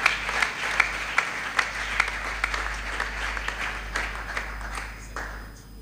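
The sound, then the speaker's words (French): An audience at a church youth gathering claps in steady rhythmic unison, sharp regular beats over a low wash of crowd noise, fairly faint overall and thinning out near the end. “Et pendant qu'il s'avance, est-ce que nous pouvons acclamer pour la gloire de notre Dieu?”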